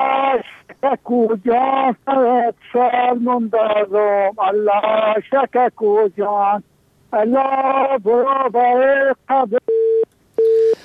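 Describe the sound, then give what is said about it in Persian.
A telephone busy signal sounds after a call drops mid-song: a long stretch of a voice singing over the phone line gives way to a couple of short, steady mid-pitched beeps at the end. “متاسفانه تماس شام قطع شد”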